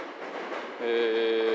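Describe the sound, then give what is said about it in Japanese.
A Hankyu line local train bound for Sannomiya passes on tracks near Nishinomiya-Kitaguchi. A soft rumble abruptly swells into a louder steady roar with a sustained, high-pitched motor whine. “There's a Hankyu line. That's a local train bound for Sanomiya is passing by. So I'm sorry for the noise.”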